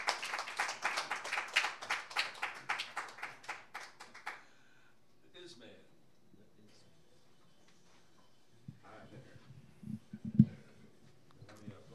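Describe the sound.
Brisk audience clapping to welcome a music duo, lively applause for about four seconds that then stops abruptly, leaving near quiet with a few faint scattered noises.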